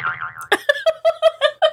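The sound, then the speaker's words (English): A cartoonish boing effect plays in a video game as a bomb bat slips out of the air on a banana peel. A wavering tone comes first, then seven quick, evenly spaced springy bounces. “That was him shooting the bomb bat, and this is the bomb bat slipping out of the air on a banana peel.”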